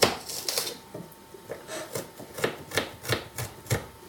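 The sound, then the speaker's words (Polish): Knife chopping onion finely while making mushroom soup: a quick, even run of many crisp, sharp knocks with no talk. “Cebulkę kroję sobie na zupełnie drobno.”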